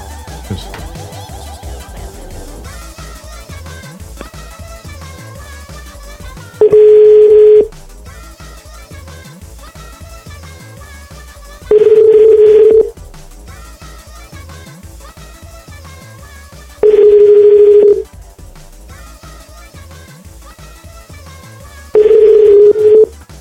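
Telephone tones as a call fails to connect: four long, steady mid-pitched beeps at regular intervals, each sounding over a quieter melodic background.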